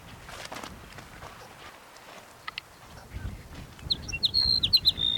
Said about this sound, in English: Sage Sparrow number 5.